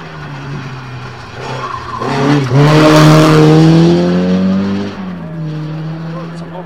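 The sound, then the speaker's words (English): Racing engine of a BDA Escort rally car with a Cosworth engine, a strained buzzing note that swells loudest through the middle of the run and then eases back, steady and harsh throughout. “This comes up. It's another BDA Escort.”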